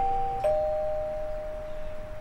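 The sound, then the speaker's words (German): A doorbell chimes at a house door on a cold evening around sunset: a two-note ding-dong, higher then lower, with the second tone ringing on and slowly fading, heard alone. “Ich klingel mal.”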